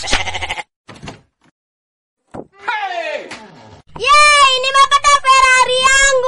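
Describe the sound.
Goats bleating in a few wavering, nasal cries separated by pauses, ending in a long, loud, shaky bleat.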